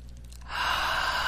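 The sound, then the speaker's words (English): A slow deep breath starts after a short quiet pause and carries on as a steady, soft, airy rush to the end. “Nice deep breath.”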